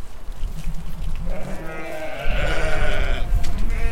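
Sheep bleating on a farm, loud wavering bleats rising out of a steady rumbling background and continuing to the end.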